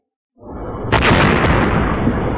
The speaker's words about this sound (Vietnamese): Luồng nước khổng lồ từ trên lao thẳng xuống mặt biển, phát ra tiếng nổ mạnh rung trời